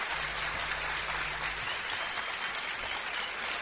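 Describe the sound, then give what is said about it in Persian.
Applause for the guests at a question session: a steady, even patter of many hands clapping, fairly faint and unbroken, with no voices over it. “یه دست براش به افتخارشون بزنی خستگیشون در بیاد.”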